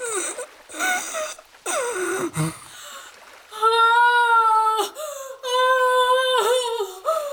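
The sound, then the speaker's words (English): Sobbing and labored, wheezing breaths from a small injured creature and a person holding it, heard as a series of strained, whimpering cries and catches of breath that break off and resume several times, fairly loud and without other sounds. “Nimble's labored breaths and Urzul's sobbing almost had a pressure to them that pressed against Lazarus.”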